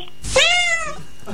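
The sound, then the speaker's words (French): A human voice imitates a cat meowing with a single drawn-out, nasal meow that sets in sharply and then fades, heard alone. “Le chat, comment il fait? Tu veux le chat?”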